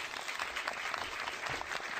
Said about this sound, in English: That deserves an applause.